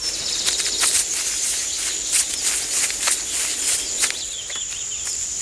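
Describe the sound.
A sparrow chirping: rapid, bright, high-pitched chirps repeating in bursts over a steady thin buzz, with no voices.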